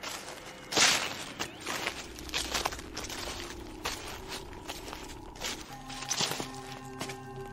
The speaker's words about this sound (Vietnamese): Nói xong lão quay ra định ra cổng thì bỗng dưng sau lưng lão vang lên tiếng loẹt xòa loẹt xoẹt, cứ như là có ai đang đi theo.